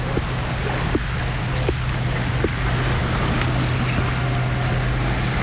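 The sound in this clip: A seaside soundscape between sea and mountains: a steady wash of waves and wind with a boat, a constant low hum beneath and a few faint knocks, no voices.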